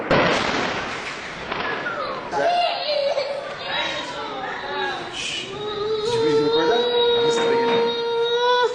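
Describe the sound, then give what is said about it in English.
A Lebanese child cries and wails in terror amid Israeli bombing. The sobbing voice rises and holds over several sharp bangs, and other voices are also present. “The sound of a Lebanese child being terrorized by Israeli bombing.”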